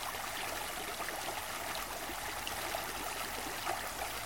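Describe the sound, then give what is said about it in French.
A clear, limpid stream flows in a steady, faint, hissing babble that stays continuous and even throughout, with no voices. “ce ruisseau. L'eau est claire, limpide.”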